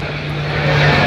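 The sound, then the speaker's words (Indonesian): Military transport aircraft engine at an airport serving as a logistics base for a multinational military exercise: a loud, continuous droning roar with a steady low hum, unbroken through the brief clip. “Itu kan pesawat angkut ya, untuk apa namanya, logistik.”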